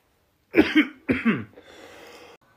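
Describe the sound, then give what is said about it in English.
Two harsh coughs come in quick succession, each a loud double-peaked burst, followed by a quieter, rough rasp of breath that trails off alone. “That was a horrible cough.”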